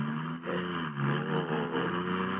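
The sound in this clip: A smooth-running car engine hums steadily while driving, giving a continuous low drone with a rich harmonic texture and no voices. The level stays even except for a brief dip near the start.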